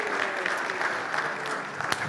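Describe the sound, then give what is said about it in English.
Applause from an audience at a church youth talk, cheering a volunteer after a treasure-hunt game: dense, steady clapping throughout, holding an even level with no clear breaks. “Round of applause for Alex for being such a good sport.”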